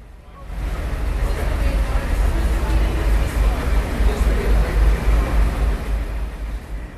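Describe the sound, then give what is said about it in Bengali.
Traffic rumbles along outside in Washington during preparations for an inauguration on a cool day, a continuous low, heavy drone of passing vehicles with voices murmuring over it. “শুনছিলেন হয়তো কিছুটা অস্পষ্টভাবে হলেও গাড়ির শব্দ, যানবাহন চলাচল করছে সেই শব্দ আমরা শুনতে পেরেছি।”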